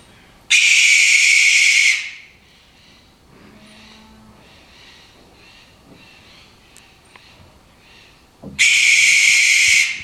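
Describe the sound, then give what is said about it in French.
Barn owl screeches, recorded in South America: two harsh, hissing shrieks of about a second and a half each, split by a long quiet stretch with only faint background sounds. “Donc ça, il s'agit de la chouette effraie, donc Tito Alba, la chouette blanche.”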